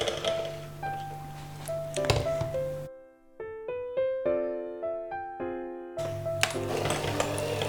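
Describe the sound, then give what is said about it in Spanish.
An electric mixer beats butter in a bowl with a steady, buzzing motor whir. In the middle a few seconds of plucked music break in, then the whirring returns. “Pongo la mantequilla en el bol. Cuando ya esté batida, añadimos el queso crema.”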